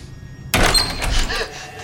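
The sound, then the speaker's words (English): A door bursts open as a woman passes through a second set of doors into an empty corridor: one sudden, loud, broad thud, then rattling noise that lingers and slowly fades. “She passes through a second set of doors”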